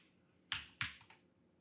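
Typing on a computer keyboard: three faint, sharp key clicks spaced evenly, each with a quick decay, against near silence.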